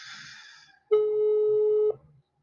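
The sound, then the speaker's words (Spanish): A telephone ringback tone plays on a speakerphone while a call is being placed. One steady, mid-pitched ring holds for about a second, then cuts off, with only faint noise just before and after it. “Está marcando apenas.”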